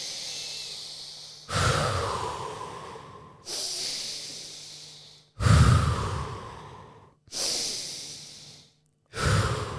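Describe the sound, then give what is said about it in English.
A person takes a series of deep, slow breaths. Loud inhales alternate with hissing, breathy exhales, each one swelling and then tailing off. “You need to breathe. I think Daddy's a little bit angry. I'm Daddy, by the way. Yeah. Just have a, just take three deep breaths, please.”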